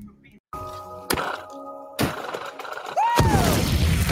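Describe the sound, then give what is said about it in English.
A film explosion from The Martian: a few sharp bangs and thuds, then a brief whooping voice and a heavy blast that leaves a loud, lingering rumble. “I like how he goes, woo, and then he blows up.”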